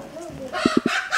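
Poultry in a run-down village in Bosnia-Herzegovina, where chickens and turkeys peck at grass among houses and car wrecks. Three quick clucking notes come in a row, then a brief crow-like call over a steady low background.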